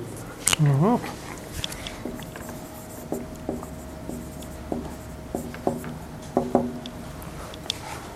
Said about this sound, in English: Could you write your solution to the whiteboard?